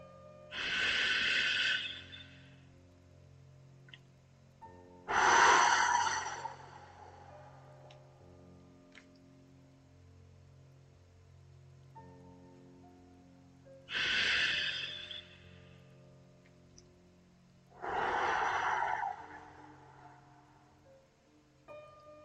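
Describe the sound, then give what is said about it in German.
Deep, slow breaths, four long airy breath sounds in two pairs separated by quiet pauses, soft and alone with no talking. “Nimm nochmal 1, 2 ganz tiefe Atemzüge.”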